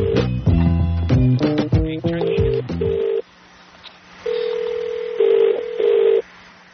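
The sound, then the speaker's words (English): A rapid string of telephone keypad tones as a phone number is dialed, followed after a pause by a few longer, steady electronic tones. “To place a call, let me call him this time.”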